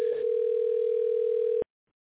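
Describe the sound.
Telephone dial tone: a single steady mid-pitched hum held evenly for about a second and a half, then cut off abruptly into silence.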